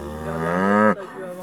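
An Angus cow lets out a single loud, low moo on an organic cattle farm in Cazavet. The call holds for almost a second, then cuts off into a fainter tail.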